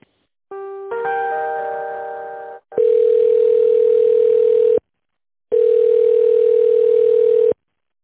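Telephone line tones while a call is being transferred: a buzzy, chord-like tone lasting about two seconds, then two long steady beeps of about two seconds each with a short silence between them.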